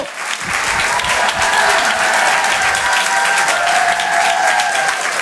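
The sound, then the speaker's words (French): Audience applause greets a comedian taking the stage at a stand-up comedy show: dense, loud, continuous clapping that holds steady for about five seconds without a break. “Je vous demande de l'applaudir très très fort.”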